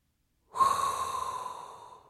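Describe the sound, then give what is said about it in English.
One sharp, hissing intake of breath by a person begins abruptly and then tapers off slowly. It is heard on its own, with no talk. “Prepare yourselves, as there is only one thing left to do, and that is inhale a hot breath”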